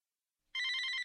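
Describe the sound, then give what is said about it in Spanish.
A telephone rings with another incoming call: one short, bright trilling ring burst, alone and clear after silence. “Un momento, que tengo otra llamada.”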